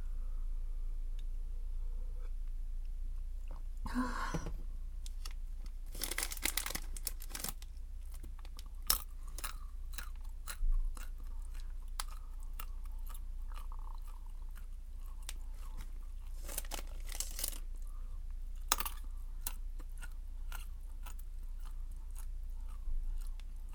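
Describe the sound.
Nuts being chewed and crunched, with quiet, close mouth sounds and occasional sharp crunching bursts scattered irregularly over a steady low hum, and no talking.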